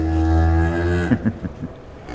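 A cow moos once, a long, loud, low and strongly harmonic call that breaks into a few short, rougher pulses before fading.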